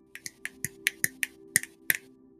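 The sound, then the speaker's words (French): Crisp finger snaps imitating the small crackles of fading lightning, about nine sharp dry clicks in a quick, uneven series over a faint steady low hum. “les éclairs se font de moins en moins forts, de moins en moins prononcés, euh, jusqu'à temps que ça fasse des petits claquements, comme”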